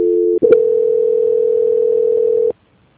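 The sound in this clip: A telephone line tone plays during a call transfer. It opens with a brief two-note tone, breaks for an instant, then holds one loud, steady mid-pitched tone for about two seconds before cutting off abruptly to silence.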